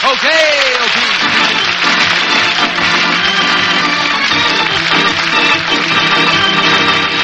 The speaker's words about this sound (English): Thank you, ladies and gentlemen, for such a hearty welcome.